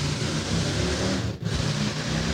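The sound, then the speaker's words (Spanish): A car engine revs hard in a loud, steady mid-pitched roar that drops away for a split second midway, then surges straight back. “Buen motor.”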